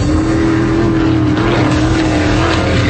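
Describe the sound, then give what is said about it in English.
Offshore race boats, ninety of them capable of over 140 miles an hour, speed across the Gulf at the Clearwater Offshore Nationals, a loud, continuous high-revving engine drone with a steady humming tone throughout. “This September, the Gulf turns into a racetrack. The X Insurance Clearwater Offshore Nationals. September 25th through the 27th on Clearwater Beach. 90 race boats, over 140 miles an hour.”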